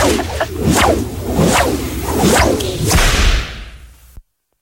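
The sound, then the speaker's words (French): A whip is swung and cracked several times, each stroke a loud, sharp swish that rises and falls in a steady rhythm before the sound stops abruptly, with no voices. “j'ai fait retourner le fouet, il est pas arrivé sur ta fesse directement, hein, t'aurais dû le sentir.”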